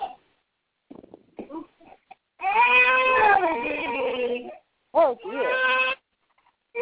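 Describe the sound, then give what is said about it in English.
A baby girl fusses and cries in two drawn-out, wavering wails, a long one followed by a shorter one after a brief pause, with a few soft whimpers before them. “You're okay. She's starting to get fussy.”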